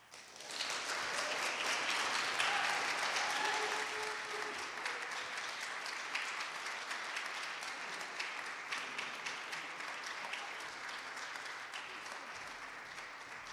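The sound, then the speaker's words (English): Audience applause welcomes a poet at a reading. The clapping swells quickly to a full, steady patter and then holds, softening gradually over more than ten seconds. “Please welcome her back to the Poetry Project tonight.”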